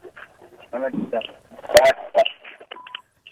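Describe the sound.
A telephone being dialed for a call-in to a radio program: a few short, bright keypad beeps come near the end, after a stretch of people talking.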